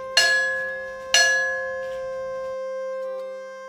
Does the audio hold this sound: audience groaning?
no